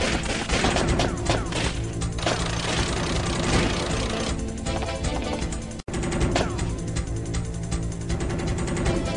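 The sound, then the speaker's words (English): Soldiers gun down a man during an invasion, with dense, continuous automatic gunfire and rapid bursts that barely let up. There is one brief gap just before the shooting resumes at full strength. “My men will gun him down. There! Shoot him!”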